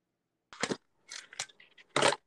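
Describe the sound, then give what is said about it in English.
Mints crunched between the teeth while eating: a few short, crackly, bright bites in separate bursts, quiet, with brief silences between them and no talking. “I'm feeling very salty today. I can tell. I'm eating mints.”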